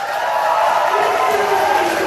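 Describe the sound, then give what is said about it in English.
Cheering fills the Victorian parliament as the treaty bill between the state and its First Nations people passes, a steady wash of crowd voices and whoops holding at an even, loud level throughout. “Cheers filled the parliament and Indigenous flags were unfurled as a bill to establish a treaty between the state of Victoria and its First Nations people passed without amendment.”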